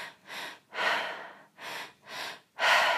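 Fast, rhythmic breathing in a breathwork practice: five loud, airy breaths in quick succession, each a rushing hiss, with no talk.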